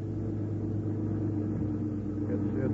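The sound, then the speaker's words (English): A car engine's steady hum serves as a radio drama effect for a drive home from an aircraft plant at closing time. A low drone with faint tonal lines holds evenly throughout, with no voices. “It's very kind of you to drive me home like this”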